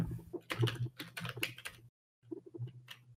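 Fingers type on a computer keyboard in a quick, faint run of clicks that stops briefly, then resumes in a shorter burst.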